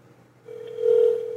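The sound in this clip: A phone call rings through a speakerphone: a single steady, low ring tone that starts faintly and swells louder before easing slightly.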